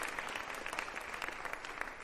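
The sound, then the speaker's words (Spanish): An audience applauds in church: dense, steady clapping from many hands with even loudness throughout and no voices. “¿Cuántos le dan un aplauso a la palabra del Señor?”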